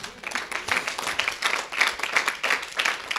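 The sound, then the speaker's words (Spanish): A church audience claps after a call for applause during a sermon on intercession. The clapping comes in quick, pulsing bursts of many sharp claps that rise and fall at a fairly regular pace. “Así es de que hermanos, déanos un aplauso”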